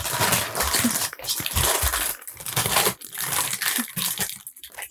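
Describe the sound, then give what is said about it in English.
A plastic bag rustles and crinkles as someone struggles to open it, giving a continuous, loud crackling texture broken by a few short pauses. “I'm sure this bag rustling will sound great for our audience.”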